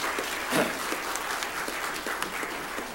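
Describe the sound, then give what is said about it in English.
A church audience applauds a member after her testimony, an even wash of clapping at moderate loudness with a few sharper claps standing out. “Let's give her some applause.”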